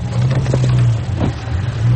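A car engine runs with a loud, steady low drone throughout, showing only slight swells in level and no clear pause.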